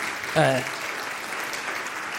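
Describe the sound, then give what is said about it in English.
A church audience applauds the worship team during a service, a soft but steady patter of many hands. A short voice rises briefly at the beginning, then the clapping continues evenly. “Round of applause, please, for the Looney's worship.”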